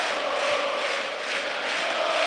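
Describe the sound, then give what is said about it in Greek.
A football crowd roars at Toumba stadium during a PAOK match: a dense, steady wash of massed voices that holds loud and even for the whole clip without clear breaks. “Και φυσικά το κοινό ξεσηκώνεται στην Τούμπα.”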